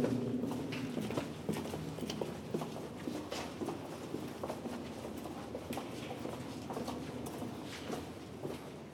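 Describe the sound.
Footsteps walking downhill on a damp path: many soft, irregular scuffs and taps, faint and steady over quiet background noise.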